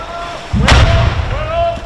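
An explosion goes off as one sharp, loud blast. A deep rumbling tail lingers beneath it for about a second before easing off.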